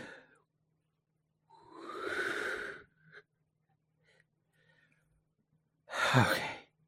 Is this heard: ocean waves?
no